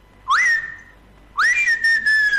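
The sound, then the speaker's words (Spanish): A person whistles in imitation of an elegant crested tinamou's call. Two loud, clear notes each slide upward and then hold steady, and the second trails into a few shorter whistles, with no talk. “Pero la martineta, la tarde como silba, habló eso de lluvia, ¿no?”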